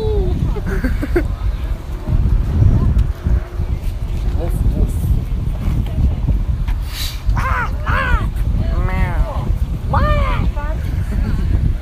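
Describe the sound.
Loud, gusty wind buffets the microphone with a constant low rumble for the whole clip, while voices call out over it now and then.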